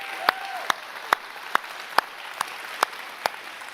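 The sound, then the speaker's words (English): Clapping for the kids at a church service: eight sharp, evenly spaced claps in a steady rhythm over a constant low background. “Can we give the kids another really big hand?”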